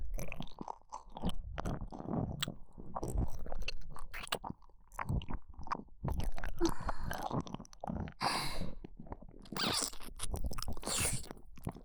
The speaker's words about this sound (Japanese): ご主人様の愛おしいお耳に心を込めて口づけさせてください。